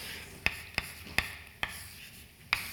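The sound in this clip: Writing out Einstein's equations during a lecture: five sharp, crisp strokes or taps stand out against a faint, steady background hiss, spaced unevenly with short gaps between them.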